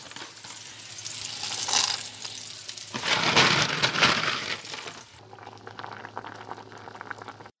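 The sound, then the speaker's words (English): Pork fries in a little oil on a very hot cast iron pan, giving a continuous crackling sizzle that swells louder in the middle and settles to a softer, steady hiss for the last few seconds. “And I'm going to cook it on a very hot cast iron pan with a little bit of oil.”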